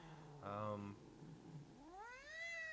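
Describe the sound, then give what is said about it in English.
A female pet cat gives a drawn-out meow that rises in pitch, clear and tonal with rich harmonics, following an earlier short voiced sound. “That's the other co-host. That's my cat.”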